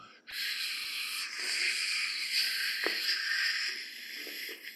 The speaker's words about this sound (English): I find that the sha breath builds that internal momentum. So the sha breath is just, so it's kind of like a wet sha.